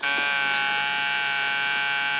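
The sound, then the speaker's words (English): A fire alarm rings in a hospital after being pressed: a steady, loud, buzzing electronic tone sounding unbroken for the whole clip. “accidentally presses the fire alarm and engines are dispatched from a station.”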